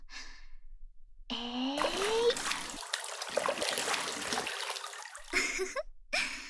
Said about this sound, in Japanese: お湯あふれちゃったね。